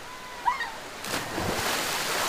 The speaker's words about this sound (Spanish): 350 litros de agua manan de esta fuente por segundo.